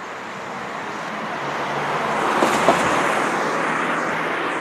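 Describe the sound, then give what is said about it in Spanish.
A passing car makes a broad, steady road roar that swells gently toward the middle and eases off slightly, with no voices. “Bien, pasando el coche.”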